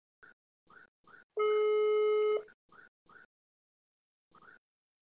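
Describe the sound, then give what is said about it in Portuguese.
A phone call rings while someone tries to reach another person: a single sustained electronic ringing tone lasts about a second, set among several short, soft blips before and after it, with no voices. “Tô tentando ligar pra ele, gente. Tá ligando normal ou tô ligando pelo WhatsApp?”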